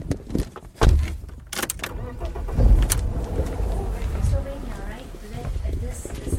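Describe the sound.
A car driving, heard as a steady low engine and road rumble that runs throughout, with a couple of brief louder thumps.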